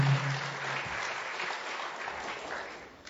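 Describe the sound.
An audience applauds to welcome a speaker to the podium, giving dense, steady clapping that holds fairly even and tapers slightly at the end.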